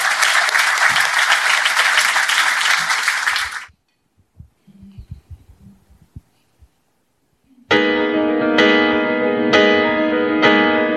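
Audience applause, dense and loud for a few seconds before stopping abruptly; a quiet pause with a few scattered small sounds follows, then music starts.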